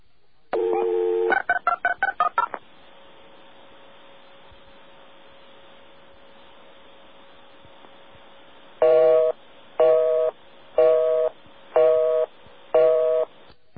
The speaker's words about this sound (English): Listen to the dialing. Listen to how long the call takes to go through.